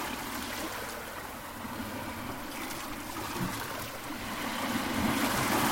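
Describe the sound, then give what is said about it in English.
Sea water ebbing on a beach, leaving wet sand and white foam, makes a steady rushing hiss with soft gurgling that swells louder toward the end, with no voices. “the sea ebbing, leaving wet sand and white foam residue.”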